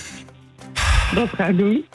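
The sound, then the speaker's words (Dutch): A quiz contestant takes one deep breath before a Bible quiz, a single breathy rush followed by talking. “Nou, ga nog even één keer diepe adem.”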